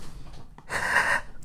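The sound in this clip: A voice imitates an actress's shocked gasp: one sharp, breathy inhalation that swells loudly and cuts off, following a short stretch of quieter breath noise.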